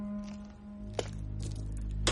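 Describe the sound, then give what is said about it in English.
Footsteps crunch on a pile of broken glass in a basement: a few sharp, gritty steps with brittle crackles between them, over a low steady drone. “She passes the gag and steps on a pile of broken glass.”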